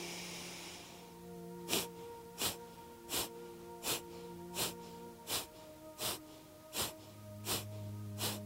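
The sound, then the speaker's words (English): Kapalabhati yoga breathing: many sharp, forceful nasal exhalations in a steady, even rhythm, each a short breathy burst, heard over a soft, sustained musical drone. “So do the 10 Kapalabhati breaths, followed by the inhale, exhale, inhale, feeling the effects of the Kapalabhati breath.”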